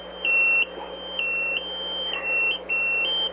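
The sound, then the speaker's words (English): An electronic alarm goes off, giving four long, steady, high-pitched beeps separated by short gaps, loud and alone over a low background hum. “Live podcasting. That's right, live podcasting and alarms going off.”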